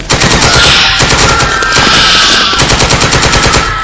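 Sustained machine-gun fire during an attack, a rapid, loud rattle of evenly spaced shots running continuously without a break and with no talk over it.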